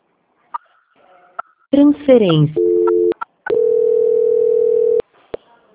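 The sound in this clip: Telephone call transfer tones: a few faint clicks and blips, a falling electronic sweep, a steady beep, then a long held electronic tone lasting over a second, followed by short blips.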